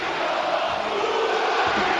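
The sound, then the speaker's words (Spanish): A football stadium crowd roars steadily as fans call for their coach to take a player off, a dense, continuous wall of voices with no clear break or rhythm across the short stretch. “¡Lucas, quítalo! ¡Lucas, quítalo! Claro que sí, hombre. Está gritando el público. ¡Lucas, quítalo!”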